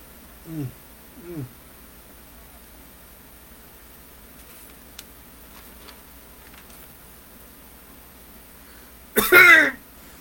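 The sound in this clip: Coughing from smoking a strong cigar: two brief, low throat-clearing coughs, then a long quiet stretch, and finally one loud, harsh cough burst.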